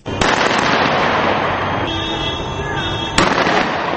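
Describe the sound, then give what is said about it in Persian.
Gunfire in Tripoli, the capital of Libya, crackles in a dense, loud, continuous stream of shots. Sharp, heavier cracks stand out near the start and again near the end. “این صدای فیر تفنگ در ترابلس پایتخت لیبیا می باشد.”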